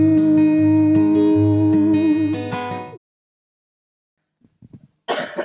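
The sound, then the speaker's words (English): A loud, harsh cough bursts out at the end, preceded by a couple of faint throaty sounds, after a sustained tonal passage cuts off into silence. “I'm going to put a cut in between that cough. Get our coughs out.”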